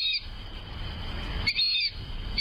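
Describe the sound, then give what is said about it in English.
Whistled calls of a fulvous whistling duck: a few short, high, clear whistles rise above a steady low rumbling noise, with one longer call near the middle. “birders in North America know the word in association with today's featured feathered friend, the fulvous whistling duck.”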